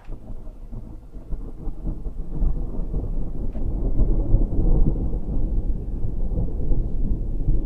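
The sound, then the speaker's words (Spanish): Rolling thunder rumbles through a thunderstorm with rain, a dense, continuous low roar that swells louder past the midpoint and stays heavy to the end. “Vamos a intentar buscar diferentes truenos, claro. Sí. Este ya es otro, porque si no siempre el mismo.”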